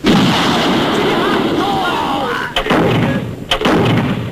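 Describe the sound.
Artillery shelling during an enemy attack on a division, a dense, continuous roar of gunfire with two sharp, loud blasts breaking through in the second half.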